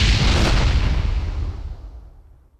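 Gunfire right after a shouted order to shoot: a heavy, booming burst that starts loud and rings out, fading steadily over about two seconds with no voices.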